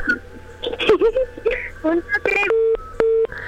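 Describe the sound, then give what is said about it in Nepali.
A phone call is cut off. A thin voice comes over the telephone line, then two steady, evenly spaced electronic beeps follow as the line drops. “Phone काटियो”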